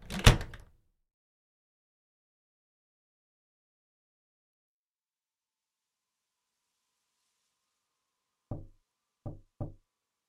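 Three quick, low knocks land on a door, evenly spaced and fairly soft. They follow a long silence after a brief louder noise at the start.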